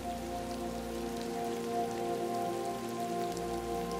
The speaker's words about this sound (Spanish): Y te permites relajarte con el hipnótico y agradable sonido de la lluvia.